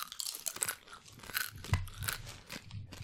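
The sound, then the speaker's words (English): Crunchy bacon chips being eaten, many dry crisp crunches and chewing sounds in an uneven rhythm, fairly faint, with no talking. “I want everybody to snack into the bacon chips.”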